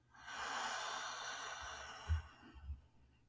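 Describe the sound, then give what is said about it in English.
A deep breath drawn in and slowly released during a guided emotional-release meditation: a long airy inhale, then a softer exhale with a couple of low, snort-like puffs near the end. “Taking a deep breath in and out”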